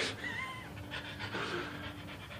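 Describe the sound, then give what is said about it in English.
A dog pants in a basement, a faint, continuous run of quick, soft, rhythmic breaths with no other clear sounds. “It's just the dog right now.”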